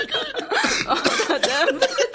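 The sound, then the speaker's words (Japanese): A person chokes and splutters, with rapid bursts of coughing mixed with gasping, laugh-like breaths and throat sounds. The bursts are short, uneven and close together. “むせてる、むせてる”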